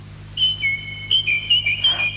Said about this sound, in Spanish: ¿Qué es esto? ¡El ruiseñor del campo canta desde la ventana! Ruiseñor, mi ruiseñor, has regresado.